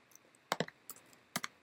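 Typing on a computer keyboard while entering code: a few quick, clicky keystrokes in two short bursts with a gap between them, heard on their own without talk.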